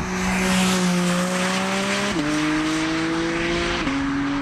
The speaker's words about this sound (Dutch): De Porsche 718 GT 4 RS.